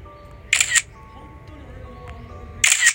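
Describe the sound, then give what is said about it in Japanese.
Two camera shutter bursts from a commemorative photo taken during golf practice, each a short, bright clatter of rapid clicks, separated by a couple of seconds of faint background hum. “収録をしながら記念撮影を撮るというね”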